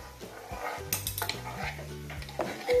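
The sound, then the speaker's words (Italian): Stirring of egg yolk mixed with chopped capers and anchovies, a utensil scraping and clinking against a bowl in a steady, fairly quiet run of small knocks and rubs. “e si va a mescolare il tutto.”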